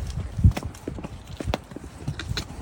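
Horse hooves clip-clopping on grassy ground while riding through a valley, many uneven hoof strikes over a low, rustling background, with no talk.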